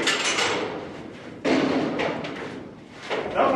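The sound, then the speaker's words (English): Heavy thuds and clunks as a metal pipe is latched to a hoist on a rig-worker training rig, with a few loud knocks spaced apart amid scraping and rustling. “A student steps forward to latch a pipe to a hoist.”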